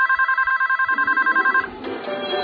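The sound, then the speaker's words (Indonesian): A telephone rings in a room with a rapid, bright, trilling electronic warble that pulses evenly for about a second and a half, then cuts off into low background noise. “Ada suara telepon berbunyi di kamar itu.”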